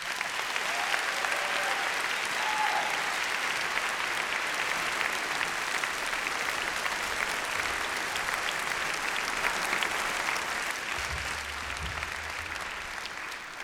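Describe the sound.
Sustained audience applause at the Augusta Festival welcomes a songwriter who plays fiddle and banjo, dense, steady clapping that holds for most of the stretch and thins slightly near the end.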